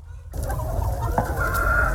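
Chickens of a special meat breed cluck steadily on a farm after a brief silent start, a dense, continuous chorus of overlapping calls with one short sharper note partway through.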